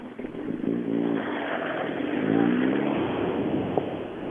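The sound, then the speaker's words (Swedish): A rally car engine revs at the start, its tone climbing and dipping in a couple of surges over a continuous rough rumble. The engine stays loud throughout. “Han ökar inte den bilen. Åker han inte? Han vill inte varva ur.”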